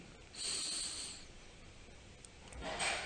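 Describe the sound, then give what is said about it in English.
A deep breath is drawn in during a guided relaxation, a soft hissing rush of air lasting about a second, with another fainter breath sound near the end. “And we go ahead and take a deep breath in.”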